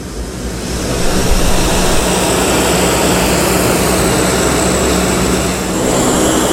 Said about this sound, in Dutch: Waarbij ze dus ook dit enorme Hercules transportvliegtuig gebruiken. En hij gaat nu zo opstijgen.